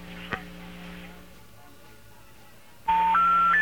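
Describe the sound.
Three rising electronic tones on a telephone line while an international call is being placed. They follow a few seconds of low hum and a single soft click.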